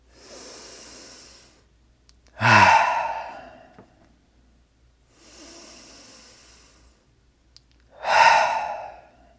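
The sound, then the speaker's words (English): Two slow, deep breaths taken during a relaxation meditation, each a soft, drawn-out inhale followed by a louder, forceful, breathy exhale, evenly spaced with quiet pauses between. “You know, even take some good old deep breaths.”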